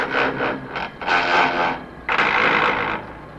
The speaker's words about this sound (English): I don't know if anybody recognizes that sound. That's what it sounds like when you're trying to find the gears and grinding between the first and the second.